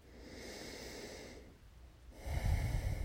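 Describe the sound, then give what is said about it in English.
A long, slow, deep breath taken during a guided relaxation: a soft, airy breathing sound lasting over a second, a brief quiet pause, then a fuller, louder breath with low rushing air. “And now taking a final long, slow, deep breath.”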